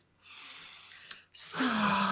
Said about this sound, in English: Let's take a breath in.